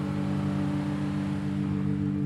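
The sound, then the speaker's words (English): Car engine hums steadily while driving through the wide town streets of Paso Robles, a continuous low drone holding an even level throughout with no talk. “Here we are, Simon, driving through Paso Robles.”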